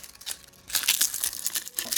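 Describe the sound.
Crinkling and rustling of dried angelica, a wild plant picked in summer and hung up to dry, as it is handled. Irregular dry crackles and rustles turn louder and denser after a quieter start and continue to the end.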